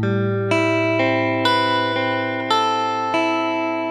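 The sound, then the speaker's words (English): A guitar plays an E minor 9 chord one string at a time, a steady series of clear plucked notes that overlap and ring together with long sustain, alone and without voices. “So this E minor 9 sounds like this.”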